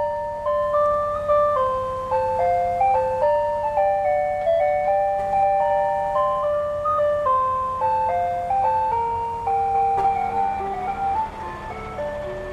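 Ice cream van chime playing a repeating melody of bright, clear electronic notes, loud and steady throughout, with the constant low hum of the van's refrigeration generator running underneath.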